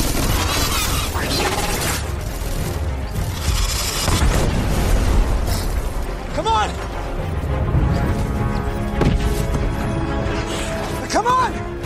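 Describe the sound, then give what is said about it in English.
A dropship explodes on a beach during a battle, with a dense, sustained roaring rumble and crashing bursts that stay loud from start to end. “We have to go. This dropship is about to explode. We have to go now.”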